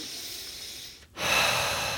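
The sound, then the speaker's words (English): A deep collective breath, a slow, soft rush of air that dips into a brief pause midway, then a louder, steady breathy flow that continues to the end. “So let us take a collective breath”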